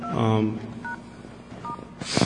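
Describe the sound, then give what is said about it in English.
Telephone keypad dialing tones as a call is placed into a conference line: a few short two-tone beeps in sequence, with a louder tonal burst at the start and a noisy burst at the end. “Again, I'm going to dial to the conference call.”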